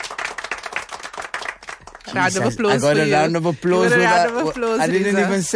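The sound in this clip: A round of applause plays as a brief burst of crisp clapping for about two seconds, then a voice begins talking and carries on to the end.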